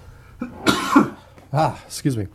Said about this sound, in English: Much like my cough, this issue is not going to go away for me.